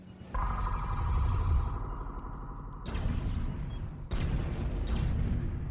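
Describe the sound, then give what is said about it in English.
Murder ships blow up after being hit by teleported laser missiles, heard as three heavy explosions at irregular intervals. Each is a sudden burst of rumbling, crackling noise that is sustained rather than fading quickly. “The three murder ships have exploded, man. Look at that blown up, man. That's all right. Blowed up is what happens when you teleport laser missiles onto murder ships”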